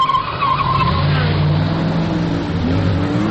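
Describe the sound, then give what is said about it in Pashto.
Engine roar and tire skidding from a car racing video game played on a computer, a loud, steady, dense drone that holds without a break from start to finish. “زه اکثره وخت په کمپیوټر کې دغه د موټر ځغلولو ګیم کوم”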